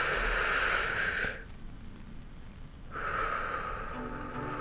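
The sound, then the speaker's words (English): A deep breath drawn in to relax, heard as a long, steady airy rush, then a quieter pause and a second long breathy stretch of air, with no talk. “let's take a deep breath to relax.”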